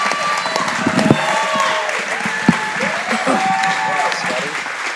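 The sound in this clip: An audience applauds a guest, a dense, continuous patter of clapping that holds steady throughout, with voices talking over it and a couple of sharper claps standing out.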